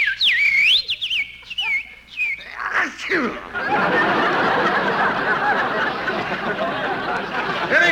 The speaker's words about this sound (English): Ah, listen to that little birdie singing.